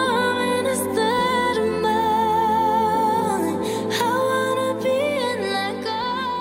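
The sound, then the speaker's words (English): Opening of a pop song that starts out like a big ballad, full sustained harmonic instrumentation playing at a steady, even loudness throughout. “So let's hear that, the very beginning of that song.”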